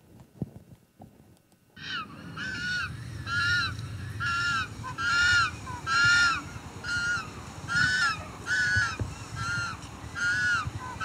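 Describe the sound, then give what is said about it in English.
Juvenile penguins call out for food in a long series of loud, harsh, honking cries. The cries repeat in a steady rhythm after a quiet, faintly clattering start. “So those are some juvenile penguins vocalizing for food, because that's what we are.”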